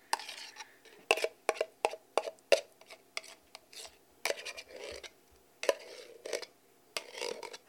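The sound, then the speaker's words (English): Pumpkin flesh being scraped out, with many quick rasping strokes in an irregular rhythm and occasional light clinks. The sounds come in short bursts of moderate loudness with brief pauses between them. “Okay, I think that's about everything I can scrape out.”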